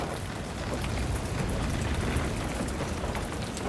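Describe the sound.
Rain falls in a dense, even hiss of countless drops. It is moderately quiet and unbroken for the whole stretch, with no voices.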